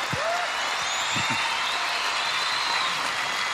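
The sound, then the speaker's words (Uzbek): Audience applause at a folk ensemble's concert: continuous, dense, even clapping that holds a steady level with a few low thumps near the start. “Mana chin qalbimdan bu gapni aytyapmanki, mana shunaqangi olqishlar ko'p bo'lsa bizni ijodiy hayotimiz ham ko'p bo'ladi.”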